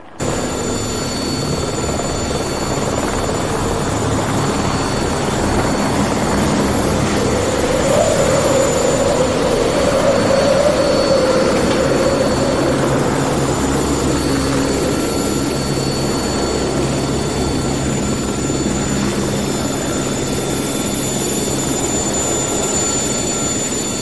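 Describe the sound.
An aircraft landing gives a loud, continuous engine drone and whine that runs steadily through the whole clip, with no pauses or clear changes.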